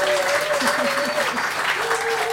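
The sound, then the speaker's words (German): Applause and loud cheering from a live audience, a steady dense wash of clapping and crowd noise that stays strong for the whole clip. “Ihr könnt mal ein bisschen Lärm machen.”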